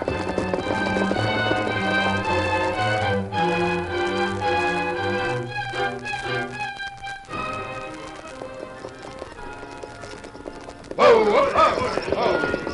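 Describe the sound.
Horses of a sheriff's posse ride off, their hooves clip-clopping in a quick, steady rhythm under music before the hoofbeats thin out.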